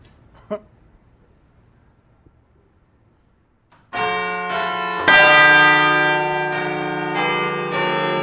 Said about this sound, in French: C'est exceptionnel. Nous venons d'entendre 6 cloches.